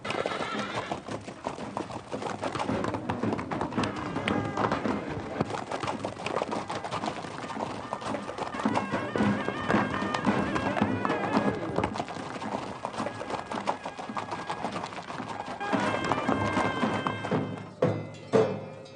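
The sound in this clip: Hooves of a hundred riders' horses galloping off form a dense, continuous clatter of many overlapping beats, steady and fairly loud throughout, with a few heavier thumps near the end.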